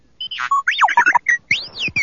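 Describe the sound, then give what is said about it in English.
A droid beside a desk beeps in a rapid, many-part string of electronic chirps, whistles and warbles, its tones sweeping up and down in pitch, fairly loud and with no talk. “The rebel's droid, R2-D2, stood right where she'd left it, beside her desk, spinning its dome and beeping unintelligibly.”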